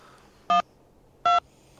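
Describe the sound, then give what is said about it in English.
Two telephone keypad tones dial a three-digit motel room extension on an automated direct-dial line: short, clear, evenly spaced beeps over a faint, steady line hum, with no talk. “If you know your party's 3-digit room number, please dial it now.”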